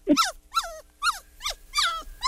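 A small pet dog at a vet visit gives about six short, high whimpering yips in a quick series. Each cry is bright and tonal with a falling pitch, and there is no talking in between.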